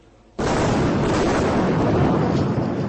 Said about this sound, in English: Rockets continue to be fired from Gaza, and massive explosions rock Gaza City.